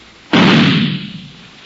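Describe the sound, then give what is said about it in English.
A single gunshot muffled through a pillow gives a sudden, thick, dull boom that decays over about a second. “You stick a gun into a pillow or something else soft and...”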